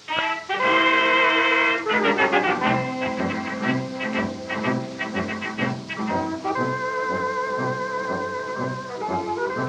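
Instrumental orchestral dance music from a 1920s record, with no singer, a lively melody over a steady rhythmic pulse, and a full, continuous sound.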